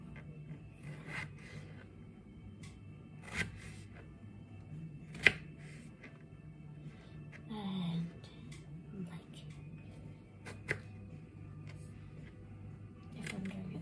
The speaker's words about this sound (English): cut this potato in little chunks. So I'm first cutting it in half.